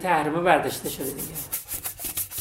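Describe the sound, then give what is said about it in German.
Brisk scrubbing of a washbasin in an office, a steady run of rasping back-and-forth strokes that starts just after a brief voice at the beginning. “schrubbt noch schnell ein Waschbecken, bevor es ins nächste Büro geht.”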